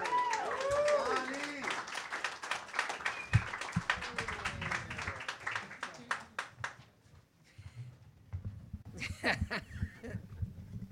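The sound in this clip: Audience applause at a reading event as the next reader is welcomed: many dense, overlapping claps that fade out partway through, followed by quieter scattered sounds.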